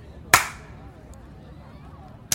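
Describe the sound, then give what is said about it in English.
Two sharp, lone hand claps, one near the start and one at the very end, each a crisp snap separated by a long stretch of near quiet. “I'm clapping. We did a good job. Oh, okay. That's right. I'll clap as well then.”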